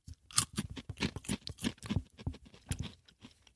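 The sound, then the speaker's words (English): Quiet, close chewing of a food sample, with many soft crunchy bites and small mouth clicks in an uneven rhythm and no other sounds. “Okay, here, let me taste one.”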